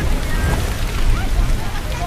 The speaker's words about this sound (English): Now, Leo and other students on the field trip have their hoods up as wind batters them.